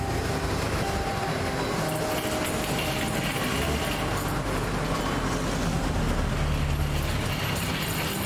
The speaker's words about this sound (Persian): برو جلو ماشین داره میاد. برو جلو. همین بعد یه جا برام جور کن. این ماشین رد شه.